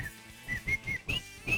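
A person whistles a tune in a handful of short, high, clear notes with small pitch steps between them, faint and alone.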